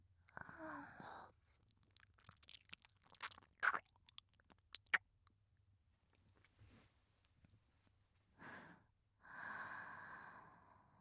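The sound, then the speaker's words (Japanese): Soft, wet mouth sounds come from nibbling and chewing on an earlobe. Scattered clicks and smacks sit between faint breaths at the start and end, all very quiet and alone. “かわいい耳たぶ、食べてもいいですよね。”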